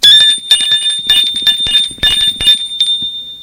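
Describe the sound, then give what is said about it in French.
A doorbell rings loudly as a rapid clatter of many metallic strikes over a constant high ring, with no one talking. “Sonne chez Christine.”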